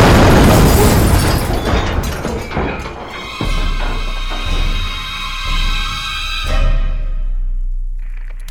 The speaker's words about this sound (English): Get ready for... missile! Missile! Brace for impact! Brace for impact now!